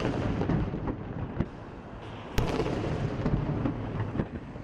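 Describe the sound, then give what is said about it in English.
Deep booms of a 21-gun salute in Havana at a memorial for Fidel Castro, a few sharp blasts rising out of a continuous low rumble. “Memorial services began early Monday after 21 gun salutes sounded simultaneously in the capital and in the eastern city of Santiago, where Castro started the Cuban Revolution in 1953.”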